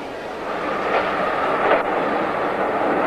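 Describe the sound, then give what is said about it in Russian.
A train pulling away from a station platform gives a steady, broad rumbling wash of noise that holds even throughout, with no clear voices. “От вокзального перрона отъезжает поезд.”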